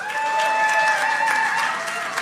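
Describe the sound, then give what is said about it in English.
An audience applauds a performer at a live music show at Eastside Bowl in Madison, Tennessee. The clapping is dense and continuous and stays loud throughout. “Thank you all for being with us for day two. Let's hear it again for Bella White.”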